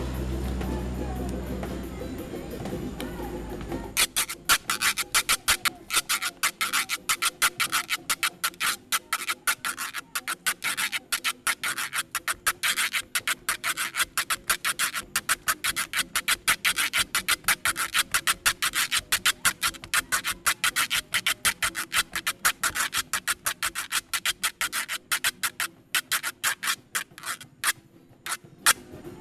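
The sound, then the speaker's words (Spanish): Güiro scraped in santiagueño style at a gathering of güiro players opening a fandango: a long run of rapid, evenly rhythmic rasping strokes, bright and steady, following a brief low murmur at the start. “Ese es el estilo santiagueño para tocar el güiro.”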